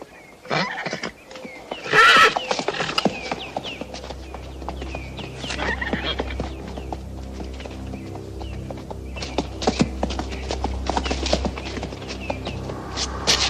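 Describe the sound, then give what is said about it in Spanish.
A horse clip-clops along with a loud whinny near the start, then hoofbeats continue at a steady pace over a low rumbling background. “Estupendo caballo.”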